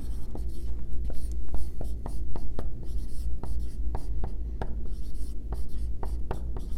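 A pen scratches out the word highlighter on paper, with many quick, crisp strokes in an irregular rhythm continuing for several seconds over a steady low hum.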